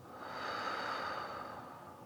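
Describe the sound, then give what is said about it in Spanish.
Rhythmic breathing during a counted breathing exercise: one sustained, airy breath of even loudness fills the whole stretch with a soft hiss. “Entonces, inhalo en dos y exhalo en dos.”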